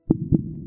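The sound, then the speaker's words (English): A simulated blue whale heartbeat: two deep, muffled thumps in quick succession, a soft lub-dub, trailed by a faint low rumble. “What you're hearing is a simulation of the very, very slow heartbeat of a blue whale.”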